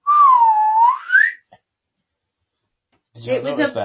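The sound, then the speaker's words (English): A person whistles in imitation of a swanee whistle as a car corkscrews through a stunt: a sliding tone that dips slightly, then climbs to a higher pitch. A brief pause and then talking follow. “What did you think of the Swanee whistle over the, as the car went through the corkscrew,”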